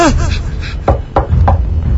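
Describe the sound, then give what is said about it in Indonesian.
Three sharp knocks on a door, spaced evenly and fairly loud, in a tense night-time horror story; a brief voiced sound comes just before the first knock. “pintuku kembali diketuk”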